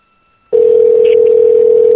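Telephone dial tone on an outgoing call starts abruptly after a brief silence, then holds as one loud, steady, unbroken pitch.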